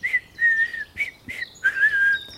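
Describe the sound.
Whistling of a cheerful little tune: several clear, high whistled notes, some short and some held, in a bouncy, uneven rhythm, heard alone without talk.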